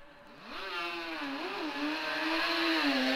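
A racing motorcycle engine revs hard as the bike sets off at a motorcycle road race, its loud pitch climbing, wavering briefly, then holding a steady, high, strained drone.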